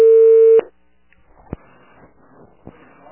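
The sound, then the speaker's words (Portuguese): A telephone tone after a dropped call: a loud, steady tone held for about half a second that cuts off abruptly, followed by near silence with a couple of faint clicks. “Ai, a ligação caiu. Caiu, amiga. É. Eu até botei aqui, ligação caiu.”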